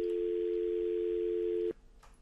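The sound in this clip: A telephone tone after a dropped call: one steady, even-pitched hum holds for about a second and a half, then cuts off abruptly, leaving faint line noise.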